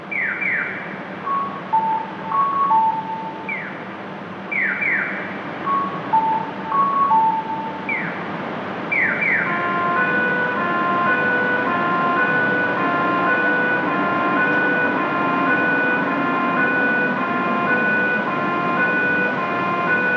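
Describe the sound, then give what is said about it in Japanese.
Electronic chirps from an acoustic pedestrian crossing signal at a Japanese crosswalk, emptied by a nationwide stay-at-home request. Repeated sweeping bird-like tones come in a regular pattern, then give way to a steadier, evenly spaced beeping over a low background hum. “全国的な外出自粛要請もあり、横断歩道の音響信号だけが虚しくなっています。”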